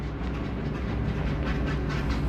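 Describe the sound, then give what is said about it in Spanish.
A train headed for Moscow in 1949 rolls along the rails with a steady low rumble and a rhythmic clickety-clack of wheels over track joints, with no voices. “Mao aborda un tren con destino a Moscú”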